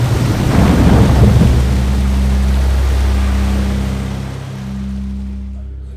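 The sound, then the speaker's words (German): The roar of a huge flood wave lifting a boat: a loud, deep, continuous rumble of surging water with a steady low drone beneath it, easing slightly toward the end. “Das Boot wurde von einer gewaltigen Flutwelle gehoben und...”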